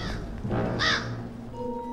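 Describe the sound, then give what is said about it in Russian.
A black raven gives a single harsh, raspy caw, loud and brief, over a steady low background. “Черный ворон объявляет об их прибытии.”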